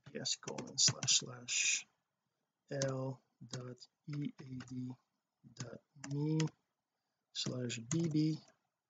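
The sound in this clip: Computer keyboard typing as a web address is entered, heard as quiet bursts of rapid clicks mixed with a voice talking, separated by short silent gaps.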